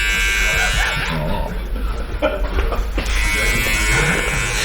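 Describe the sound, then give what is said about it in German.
An electric razor buzzes steadily as it shaves hair on a customer's face, including around the nose. The droning hum continues throughout, with voices speaking over it. “Muss ich mal kurz innehalten, weil mir werden wieder die Intimhaare hier rasiert. Also im Gesicht natürlich.”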